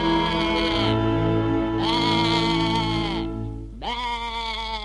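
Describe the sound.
A sheep bleats three times, each a long, loud, wavering cry separated by brief pauses, the last starting with a quick upward lift in pitch, with a steady low hum underneath.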